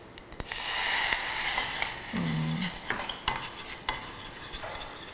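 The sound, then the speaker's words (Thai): Squid sauce simmers in a pan with a steady, hissing sizzle. A utensil stirs and scrapes against it in a few sharp clicks. “ควรครับเราเคี่ยวด้วยกันก่อนสักพักหนึ่งนะครับ นึกถึงปลาหมึกผัดไข่เค็มเลยค่ะ ต้องเติมน้ำนิดนึงนะครับเดี๋ยวขอใส่น้ำเพิ่ม”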